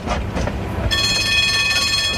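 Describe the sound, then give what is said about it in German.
A city tram running on rails: rumbling wheel noise with rhythmic thumps at first, then a sustained, high metallic squeal of wheels on the track over a steady rolling roar. “Sie stiegen in das Tram Nummer 8 ein.”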